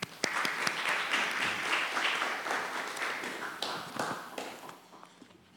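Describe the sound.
Applause from a church audience welcoming a guest preacher, many hands clapping in a dense, sustained round that stays steady, then thins and fades away near the end.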